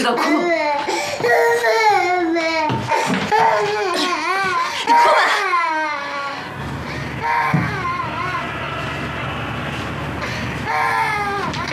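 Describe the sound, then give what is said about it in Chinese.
A child cries loudly in a strained, wailing sob, each cry bending up and down in pitch in a broken rhythm, then settling into rougher, softer whimpering toward the end. “你天到晚就知道哭，你哭吧。”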